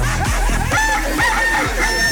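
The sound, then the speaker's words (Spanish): A rooster crows loudly in a brief burst, giving a harsh, strained call with no talk over it. “Amaneció alegre el gallo.”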